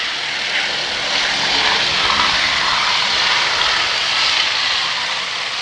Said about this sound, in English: the B-17 is now rolling down from our left. It's headed to the right, southbound, and it's rolling down almost in front of us right now.